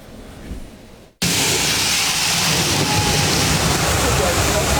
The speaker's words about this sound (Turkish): Çalışma sırasında ana boru patladı. Sokak ve bir iş yeri su içinde kaldı. Avcılar'da tonlarca su boşa aktı.